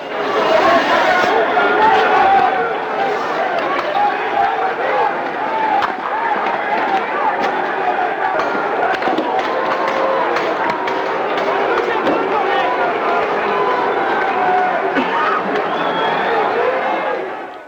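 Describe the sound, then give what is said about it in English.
A large protest crowd outside the Greek Parliament building in Athens makes a dense, loud, unbroken roar of many voices, steady throughout with no pauses. “riot police firing tear gas to break up the crowds. Thousands of people are protesting new cost-cutting measures. No injuries or arrests have been reported. Here's the sound outside the Greek Parliament building in Athens.”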